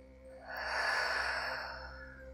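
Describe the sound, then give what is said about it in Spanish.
A deep exhale through the mouth during a guided breathing meditation: one soft, breathy rush of air that swells, then slowly fades, with no talk over it. “Comienza con una inhalación profunda por tu nariz que llene tus pulmones hasta el fondo. Retén el aire y por tu boca suelta.”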